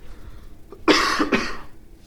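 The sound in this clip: A person with something stuck in the throat gives two harsh, loud coughs in quick succession, the second slightly weaker, after a brief faint throat sound.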